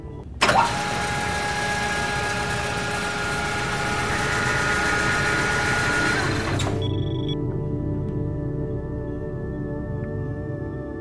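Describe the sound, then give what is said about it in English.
A loud, abrupt mechanical whirring and grinding as a surgical chamber lowers onto a surgical bed. It holds steady for several seconds, then cuts off and leaves a low hum with faint tones. “The noise of the chamber lowering upon the surgical bed can be rather loud. Please do not be afraid. It will not harm you.”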